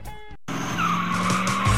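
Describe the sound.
Tires squeal and skid as drag racing cars launch on a street drag strip along Route 66 in Kingman. A loud, sustained screech rides over engine roar after a brief silent gap.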